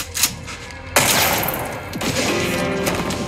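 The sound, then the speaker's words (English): A loud, sharp gunshot in a TV drama scene, with a sudden blast followed by a long ringing rumble, and no voices. “Junior just shoots Ollie.”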